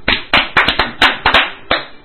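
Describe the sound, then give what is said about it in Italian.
Hand clapping, about eight sharp separate claps at an uneven rhythm, loud and alone with no voices. “il Tribunale di Roma, che noi applaudiamo per la sua demenza”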